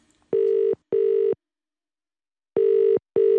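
Ringback tone of an outgoing phone call: two pairs of short, steady mid-pitched beeps, each pair a quick double ring, separated by a silent pause.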